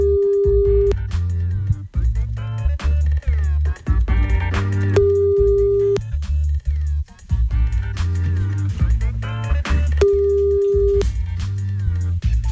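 Ringback tone of an outgoing phone call: three long, steady, evenly spaced beeps with gaps of several seconds between them, heard over continuous background music.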